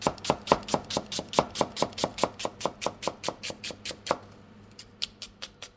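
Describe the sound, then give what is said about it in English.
A knife roughly slicing an onion for an instant noodle and cheese dish: many crisp, evenly spaced chops in a quick steady rhythm, then a brief pause and a few slower cuts. “So you need a piece of onion. You can just roughly slice it.”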